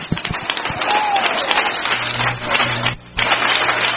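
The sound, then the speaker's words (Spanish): An audience at a church service applauds, with dense, loud, steady clapping that dips briefly near the end and then resumes. “Dele ese aplauso al Señor.”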